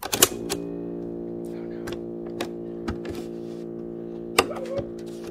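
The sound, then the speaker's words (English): Mechanical clicks and clunks from a tape player loaded with a repaired cassette that fails to play, with several sharp knocks scattered over a steady low hum. “And so, we popped it into my tape player.”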